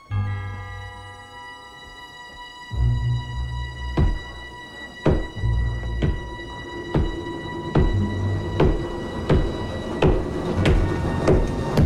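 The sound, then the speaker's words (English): Hard, heavy typewriter keystrokes from a secretary hammering at the keys. They land as loud, sharp thuds at an uneven, fairly slow pace over a steady tonal background. “Secretary is hammering away at her typewriter, looking miserable.”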